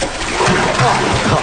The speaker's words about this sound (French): On va écouter le doux son du liquide qui s'écoule